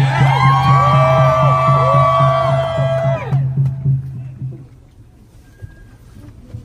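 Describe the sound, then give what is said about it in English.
An audience at a civil rights rally cheers and whoops to welcome the NAACP president, with loud rising calls over a low drone for about three seconds, then fading to a quieter murmur. “Please give me a warm welcome for him.”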